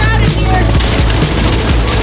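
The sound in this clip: Gunfire in the Grand Theft Auto 6 video game trailer: a loud, dense mix where several sharp bursts punch through a continuous rumbling bed of action sound.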